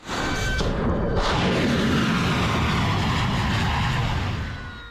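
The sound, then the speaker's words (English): Deep, heavy roaring rumble of explosions from overnight US military strikes, captured in recorded footage. A loud, dense, continuous boom swells at the start, holds steady for several seconds, then tapers off near the end, with no voices. “that was the sound of footage from US Central Command, which said it launched 5 hours of strikes overnight aimed at weakening Iran's ability to attack commercial”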